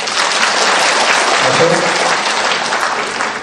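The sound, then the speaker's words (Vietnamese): An audience applauds at a Buddhist Dharma assembly in San Jose: dense, loud clapping from many hands that holds steady throughout. “Giơ tay lên đó, quý vị vỗ tay đi.”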